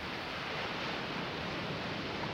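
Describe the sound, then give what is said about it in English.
Ocean waves produce a steady, faint rush of surf noise, an even wash of sound without distinct swells or breaks across the short stretch. “Experience the sound of the ocean waves and feel yourself there.”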